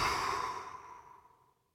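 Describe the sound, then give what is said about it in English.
Passive exhale, with air let out of the lungs like a sigh. A single soft, breathy outflow starts at full strength and fades smoothly away, heard quietly on its own. “What they will do is what's called a passive exhale, right? Which sounds like this.”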